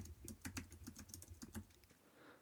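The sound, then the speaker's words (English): A computer keyboard is typed on a desk about a foot and a half below the microphone, giving a rapid run of many crisp keystroke clicks. The keystrokes stop partway through, leaving faint background noise. “Now I'm going to do a quick test here and just type a little bit”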